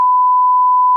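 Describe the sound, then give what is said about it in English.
A flatline beep standing in for brainwaves tuned to conventional radio: one steady, unbroken electronic tone at a single pitch lasting about a second, loud and alone. “This is the sound of someone's brainwaves listening to conventional radio.”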